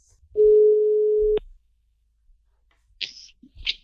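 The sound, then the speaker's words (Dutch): A telephone call being placed: a single steady ringback tone sounds for about one second, ends with a click, then a few faint clicks and handling noises follow. “En ik ga nu bellen met, eh, met Erik.”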